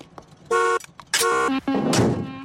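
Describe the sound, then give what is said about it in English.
A car horn honks three times, each blast loud and steady in pitch, with the third one held longest and sounding rougher toward its end. “my taxes paid for that horn.”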